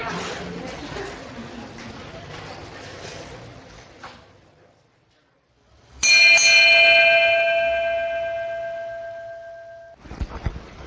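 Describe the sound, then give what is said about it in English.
A single bell struck on radio to mark a time break, ringing loud with clear steady tones that slowly fade over about four seconds, after a stretch of noisy background and a brief silence. “That bell may not seem like it takes a while to bell, but brings you forward in time.”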